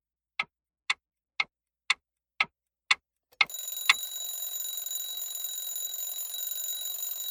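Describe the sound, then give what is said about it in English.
A clock ticks about seven times at an even pace, then its alarm starts: a loud, continuous, high-pitched electronic ringing that holds steady to the end. “Your alarm's been going off for five minutes.”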